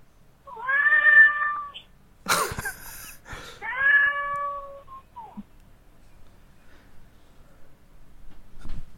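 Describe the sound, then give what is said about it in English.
Two drawn-out, high, tonal cat meows with a brief burst of rustling noise between them, followed by quiet faint clicks. “that is a cat. Our first feline caller.”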